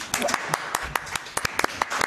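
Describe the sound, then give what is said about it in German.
Scattered hand claps from a few people applauding a wine princess at a wine tasting, irregular and uneven in spacing, with soft voices faintly underneath. “Nochmal einen Applaus für Niki.”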